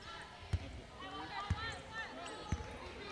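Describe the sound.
A basketball is dribbled on court during an MTSU vs. FIU women's college game. Three evenly spaced, thumping bounces come about one per second under a commentator's steady talk.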